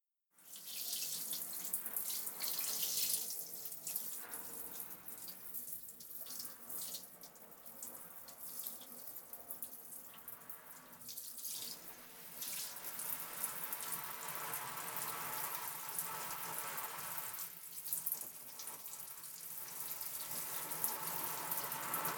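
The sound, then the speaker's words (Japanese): Water pouring to rinse someone's back, a continuous hissing, splashing flow that runs for about twenty seconds with small swells and dips in strength, fairly faint and without voices. “お背中流しちゃいますね。”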